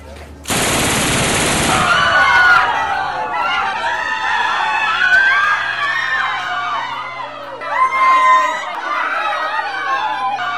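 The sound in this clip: Heavy-calibre gunfire from a man opening fire without warning inside an underground city: a sudden, loud, rapid burst of shots lasting about a second and a half. A busy clamour of agitated voices follows.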